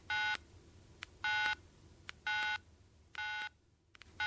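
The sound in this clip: Telephone dialing before a call to a friend: four evenly spaced bursts of keypad tones, each about a third of a second long, with faint short clicks between them against a quiet background.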